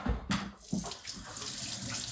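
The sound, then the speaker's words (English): Water runs from a tap while hands are washed, a steady hiss of flowing water broken by a couple of splashy bursts early on, with no talking. “Now, what I want you to do, let's turn the lights back on and we're gonna wash your hands.”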